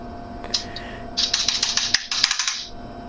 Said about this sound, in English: No, your older keyboard, your membrane keyboard.